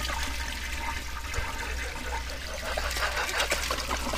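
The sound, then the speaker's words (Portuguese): A toilet flushing in the background: a steady rush and trickle of water holding an even level through the whole clip, with no talk over it. “Pra que que vão soltar descarga, logo descarga, né? Pra que um descargão de fundo?”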